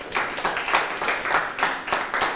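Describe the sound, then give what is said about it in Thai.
Students clap for themselves in a classroom, a run of sharp, fairly even claps rising and falling in loudness and carrying on without pause. “ปรบมือให้ตนเอง”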